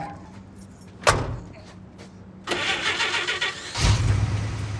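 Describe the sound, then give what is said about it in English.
A pickup truck door thuds shut in a parking lot, then the engine cranks, catches and settles into a loud steady running rumble with no talk. “races over from the store and gets in his truck”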